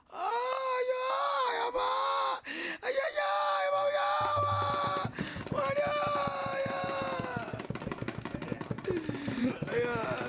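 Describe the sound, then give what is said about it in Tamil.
Wailing and moaning voices rise and fall in long, drawn-out cries. Partway through, a rapid rhythmic clopping beat sets in beneath them. “ஐயோ, ஒற்ற குரல் ஓசை, அழுசத்தம், இதெல்லாம் வேண்டாம்.”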